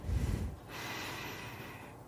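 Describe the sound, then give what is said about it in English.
A slow, deep inhale through the nose during a breathing exercise: a brief low rumble, then a long, steady, airy draw of breath lasting well over a second. “So you count five and you inhale. Like I'll do that slowly and you'll feel it.”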